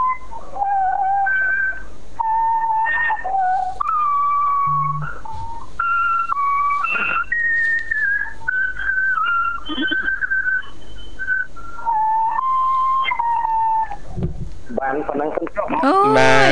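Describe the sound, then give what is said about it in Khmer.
Reedy whistled tones from a child blowing on a tree leaf, a long wavering string of held notes that step up and down in pitch, with a short burst of voice near the end. “ដោយសារតកូនវាកាន់ស្លឹកឈើផ្លុំផ្លុំដល់យើង”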